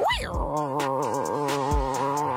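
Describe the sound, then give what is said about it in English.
A person's voice imitates a strong tiger growl: a sustained, voiced, rumbling snarl whose pitch wavers up and down for a couple of seconds, heard alone without other talk. “A good strong tiger growl.”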